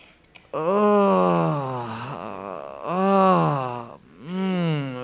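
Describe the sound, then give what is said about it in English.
A person groaning in pain with a few long, loud, voiced moans. The pitch wavers and sags within each moan, with brief pauses between them and no other sound. “You're groaning in pain, right? You're groaning in pain.”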